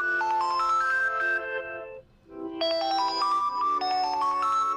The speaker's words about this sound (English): They're just the default Android sound effects